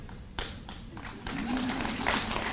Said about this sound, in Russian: Знаете, ну хорошо, вы похлопали.